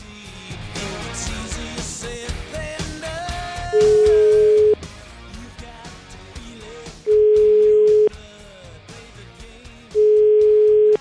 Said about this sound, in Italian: Andiamo a, facciamo una bella telefonatina, andiamo a controllare.